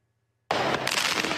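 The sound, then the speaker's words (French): Fireworks mortars fired at a prison in daylight: after a moment of silence, a sudden loud burst breaks in and continues as dense, sustained crackling and rumbling noise. “En pleine journée, le centre pénitentiaire de Beauvais est la cible de tirs de mortier.”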